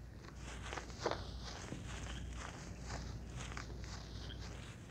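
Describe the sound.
Footsteps walk through the woods with soft, steady crunching steps, one slightly louder near the start, the rest low and even.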